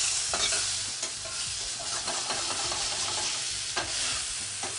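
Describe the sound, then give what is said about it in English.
Fish fries in a pan in a cooking demonstration, with a steady bright sizzle and scattered small crackles and pops. No voices are heard over it. “My fish, I think, is just about done. I'm just going to give it one last second on the other side.”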